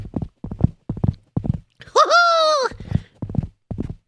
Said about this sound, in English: I strapped the horse here. Okay, let me get on. Okay, giddy up, horsey.